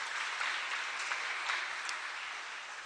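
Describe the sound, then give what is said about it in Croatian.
A crowd applauds a performing group that has rehearsed for only a few months, giving a continuous, even patter of many hands clapping that stays fairly quiet and fades slightly toward the end, with no talking. “Oni vježbaju samo nekoliko mjeseci, tako da zaista ovo zaslužuje veliki aplauz.”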